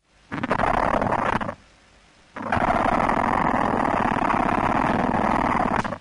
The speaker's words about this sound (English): So that's it scraping the back end of the abdomen against itself. So that's the queen.